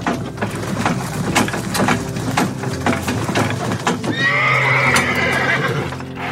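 A horse whinnies loudly in a long, shrill neigh near the end while hooves clip-clop steadily throughout as it runs off pulling a cart.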